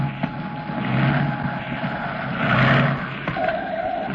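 An aircraft crash landing makes a loud, rumbling roar with a tonal engine hum. The noise swells twice, then eases, with no voices heard.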